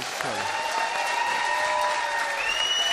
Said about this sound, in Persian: خب کسایی که موافقن دست بزنن.